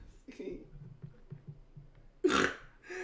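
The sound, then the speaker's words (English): A single loud, breathy snort bursts out from a person after low, murmured talk, followed by another brief breathy noise at the end. “Whoa, dude, that was a thing of beauty. That was a genuine snort. Oh my god, we need that on the fucking soundboard.”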